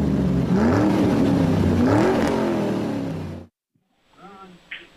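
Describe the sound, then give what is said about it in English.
A car engine revs loudly, its pitch swelling up and down twice over about three seconds. It then cuts off abruptly, followed by faint, indistinct sounds. “to get your vehicle cranking.”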